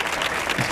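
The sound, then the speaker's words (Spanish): Applause from an audience in a Spanish-language program, cheering a guest after a heartfelt written tribute: a short, steady burst of dense clapping, fairly loud and even throughout, with no clear voices over it. “Otro aplauso para él.”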